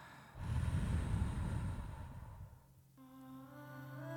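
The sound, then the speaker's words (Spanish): A long, deep inhale through the nose followed by a gentler exhale, calm and unhurried, with a soft sustained tone coming in near the end. “Una vez más, iniciamos una inhalación profunda a través de tu nariz. Inhala. y exhala.”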